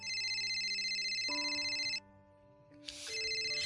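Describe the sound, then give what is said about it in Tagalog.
A mobile phone rings with an incoming call, playing a loud, looping electronic melody of clear bright tones with no talking over it. “Sagutin mo na yan. Kanina pa yan tawag ng tawag sa'yo.”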